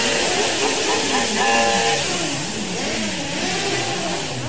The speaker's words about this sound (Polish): lubią ten mechaniczny taki łoskot, który dobiega z tych silników dwucylindrowych widlastych